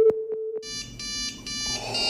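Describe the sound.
An incoming video call rings: three short mid-pitched beeps, then a brighter electronic ringtone of sustained chiming tones that pulse a few times.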